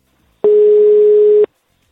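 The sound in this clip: A telephone ringback tone heard while calling someone: one steady, loud, mid-pitched beep lasting about a second, standing alone against silence.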